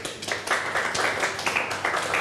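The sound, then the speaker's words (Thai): Classmates clap for a student in a classroom: a steady run of many quick, overlapping hand claps at moderate loudness, holding an even rhythm throughout. “ปรบมือเพื่อนหน่อย”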